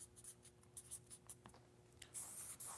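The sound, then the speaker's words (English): Handwriting, with letters such as M being written out: faint, quick scratching strokes of a pen in an irregular rhythm, growing slightly denser toward the end. “Predominantly, I keep writing M's for some reason.”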